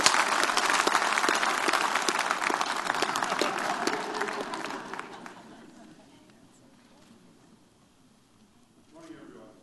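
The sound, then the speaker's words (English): A church audience applauds to welcome a visiting bishop from South Africa. Loud, dense clapping gradually thins and fades out after about five seconds, then near-quiet, with a voice starting at the end. “Let's all put our hands together for a very warm Celebration Church welcome at all of our campuses.”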